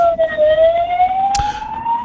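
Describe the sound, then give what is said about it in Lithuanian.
A fire engine siren wails as the truck passes on the road, a loud steady tone gliding slowly upward in pitch over low road noise, with a brief sharp click partway through. “Palaukit, čia gaisrinės. Čia nepasius. Oi, praleiskit gaisrinę, sustokit saugiai viską.”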